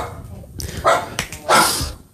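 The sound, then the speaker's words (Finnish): A dog barks in a few short, sharp bursts, with the last one longer and loudest, heard alone with no talk over it. “Miks tuolla on koira? Mä mietin just, että mikä satana koira tuolla on.”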